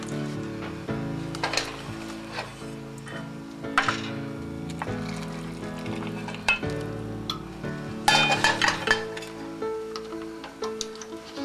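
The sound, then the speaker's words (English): A spoon stirs liquid beef bouillon into a dish, scraping and swishing in irregular strokes with soft, wet squelches and a light sizzle-like hiss between them. “Give it a good stir because you don't want it to stick together.”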